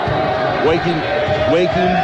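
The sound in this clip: Basketball dribbled during a game involving Goshen: a couple of dull bounces on the floor under continuous play-by-play commentary and crowd murmur.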